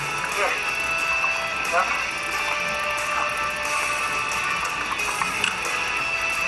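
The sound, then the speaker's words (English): A fishing reel clicks faintly as it is cranked with its drag backed up so no line comes in. The mechanical ratcheting ticks run steadily under a low background hum. “Now the drag got backed up somehow. Real. So he's reeling, but no line is coming.”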